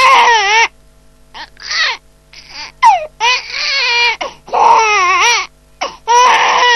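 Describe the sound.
A hungry baby girl cries loudly in many wavering, high-pitched wails, some short and some drawn out, with brief gasps between them and no talk.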